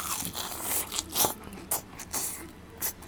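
Crisp crunching bites into a golden deep-fried kushiage skewer of meat-stuffed green pepper dipped in sauce, giving several sharp, crackly crunches in an uneven rhythm with no speech.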